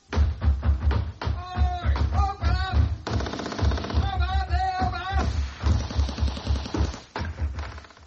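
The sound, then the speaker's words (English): Sound-effect gunfire staging a full-scale Gestapo attack, with rapid bursts of shots and clattering impacts running almost without pause, loud and dense, mixed with voices throughout. “GS1 finally closed down after a full-scale Gestapo attack, using the BBC sound effects department.”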